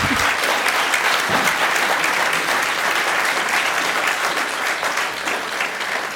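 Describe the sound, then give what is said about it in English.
An audience applauds at the close of an evening conversation event, dense and even clapping held at full strength from start to finish, with no voices standing out. “I would like to ask you all, please, to put your hands together for Mireille Juchau.”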